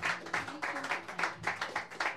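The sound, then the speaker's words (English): Audience applause between performers at a live show, many hands clapping in a dense sound that swells and dips in a regular pulsing rhythm. “So another big round of applause while they get set up.”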